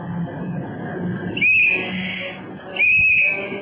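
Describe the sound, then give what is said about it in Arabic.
A tram arrives in a radio drama sound effect: a steady, loud rumble runs throughout, broken by two short, shrill whistle-like squeals, one near the middle and one near the end. “الترماي جاي.”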